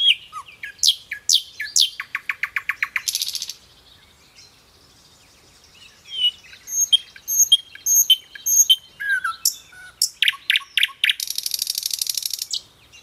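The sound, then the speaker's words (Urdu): Male birds singing mating calls in the breeding season: many bright chirps and rapid trills in bursts, with quick repeated notes and short pauses, loud and without voices. “Meeting season کے دوران میل birds female birds کی توجہ حاصل کرنے کے لیے بولتے ہیں، گانا گاتے ہیں،”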